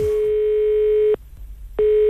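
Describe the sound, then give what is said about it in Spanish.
A telephone line rings during a live call as a steady, pure mid-pitched tone. It sounds for about a second, cuts off for a brief pause, then starts again. “El teléfono está activo, atención.”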